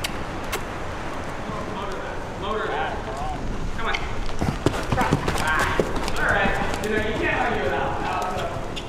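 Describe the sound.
Horse hooves clip-clopping at a riding gate on There Be Dragons Farm in Littleton, Massachusetts, during a riding lesson, with a steady run of hoofbeats under people talking.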